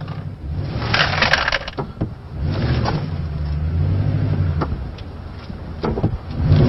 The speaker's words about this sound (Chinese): 我已经听到右侧脚踏板被顶了一下，这就是它的短板，就是轴距长，离地间隙不够高